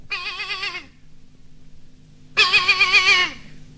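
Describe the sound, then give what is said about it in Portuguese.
Goat kid bleating: two loud, wavering, high-pitched bleats separated by a pause of over a second, with no voices. “E o cabrito foi chegando e foi berrando.”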